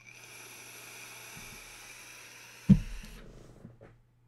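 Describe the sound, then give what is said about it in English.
A long, steady hissing draw on an Innokin vaporizer with a faint high whine running under it, then a short louder burst near the end before the sound trails off. “So I'm gonna dial back my draw velocity a little bit on this Inokin. We'll see what happens.”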